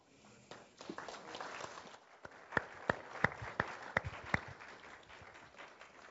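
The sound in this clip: Running footsteps as a person hurries up to ask a question at a panel discussion: a quick series of sharp thuds over a low murmur of background noise.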